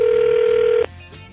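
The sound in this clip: A telephone call tone sounds as a prank call to a store's customer service line is placed. One steady, single-pitched electronic tone holds for under a second, then cuts off abruptly into faint line noise.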